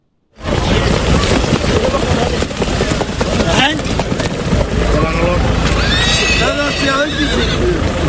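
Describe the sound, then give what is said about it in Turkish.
Ambling horses race on a sand track at a traditional Turkish championship quarter-final in Kütahya: a dense, continuous rumble of hooves with whinnies, and voices present throughout. “Bu sefer kum pistlerde rahvan atlar koştu.”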